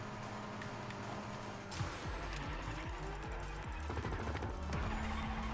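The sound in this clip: A car drifts in a racing video game: a loud, continuous engine roar with shifting, revving pitch and screeching tires that swell toward the end.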